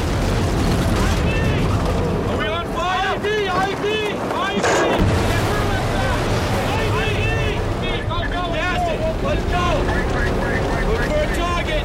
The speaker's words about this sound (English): the camera is on the fringes when a convoy comes upon an IED, an improvised explosive device.